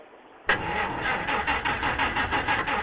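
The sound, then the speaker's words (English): A car engine being started catches abruptly out of a low hum and settles straight into a steady, medium-pitched running note with a faint, regular pulsing throb, heard alone without talk. “we're trying to get the car started now”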